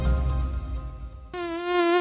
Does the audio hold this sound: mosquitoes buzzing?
yes